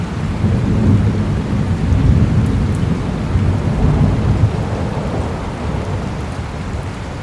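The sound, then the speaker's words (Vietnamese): Deep thunder rumbles continuously across the mountains, a heavy, loud roll that swells and eases in waves over steady rain with no pause. “Trong bóng tối chỉ nghe thấy tiếng sấm kinh thiên động địa rền vang khắp núi Dã Nhân.”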